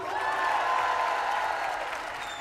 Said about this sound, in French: Et maintenant, je voudrais que vous fassiez encore plus de bruit, s'il vous plaît, pour Iba Tawaji.